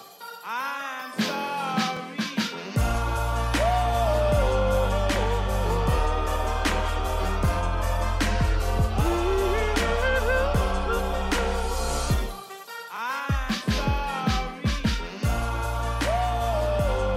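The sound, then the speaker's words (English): Rap music built on a heavy, steady bass-driven beat with dense percussion, playing loud throughout. Near the end a brief, sparser break gives way to the full beat again. “It's rap music, and it sounds like this.”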